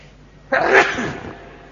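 A single sneeze bursts out suddenly and loudly, then fades into a softer breathy tail over about a second, with no other sounds around it.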